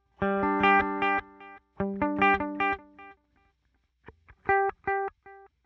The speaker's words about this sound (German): Also jetzt haben wir 400 Millisekunden, dann kann man das Feedback noch einstellen. Das heißt, wie oft die Wiederholung kommt. Wenn ich das jetzt hier relativ runter drehe, dann hört man nur eine Wiederholung.